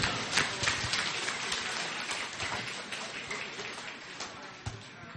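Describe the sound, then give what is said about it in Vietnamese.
Applause rises from the gathering at a Buddhist inauguration ceremony for a relic site, a crackling, rain-like patter of many hands that continues steadily and eases slightly toward the end. “kính đề nghị chúng ta dâng cao một tràng pháo tay để chúc mừng.”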